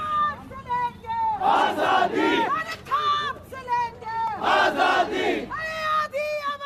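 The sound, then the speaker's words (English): Demonstrators in New Delhi chant against harassment and violence on women. Rhythmic, repeated phrases from a mass of voices alternate with louder, rougher crowd shouts. “The sound of demonstrators in New Delhi calling for a halt to harassment and violence against women.”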